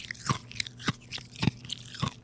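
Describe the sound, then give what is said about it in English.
Ice being crunched while eaten: four distinct, crisp crunching bites at an even pace, each a sharp brittle crack with softer chewing between them. “That sounds so weird on the headphones. I wish you had some on. Some ASMR ice eating. That's kind of pleasant, actually.”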